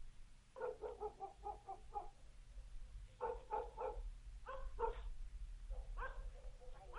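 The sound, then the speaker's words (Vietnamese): Dogs barking loudly at the end of a village, several sharp rapid barks in bursts with short yips between them, repeating over a low steady background hum. “gã bỗng nhiên nghe tiếng chó sủa ở cuối làng. Tiếng chó cắn ông ổng vang lên.”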